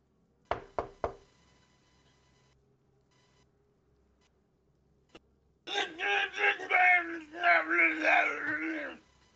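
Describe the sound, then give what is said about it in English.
Three sharp, quick knocks on a door at room 3 in a tabletop role-play game, evenly spaced and loud. After a pause, a voice speaks. “Lula is going to take a deep breath and knock on the door”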